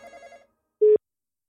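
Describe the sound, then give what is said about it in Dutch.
A phone call rings out: a warbling electronic ring tone pulses briefly and fades. After a short pause comes a single clipped beep, with no voices. “Kijken of die overgaat. Kijken of die opneemt.”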